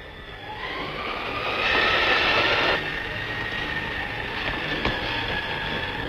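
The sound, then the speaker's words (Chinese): A train pulls into a station platform with a steady rolling rumble and a drawn-out tonal whine. The sound swells louder for a stretch in the middle, then settles back to a continuous, even roar. “注意注意，21次要进站了。 请站台上的旅客注意往后靠。”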